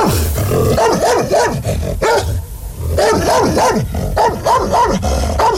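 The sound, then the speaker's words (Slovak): Fierce dog barking in a long string of rapid, loud barks, with a brief lull partway through before the barking resumes just as forcefully. “Podišiel som k ním a zabrechal som, ako najstrašnejšie som vládal.”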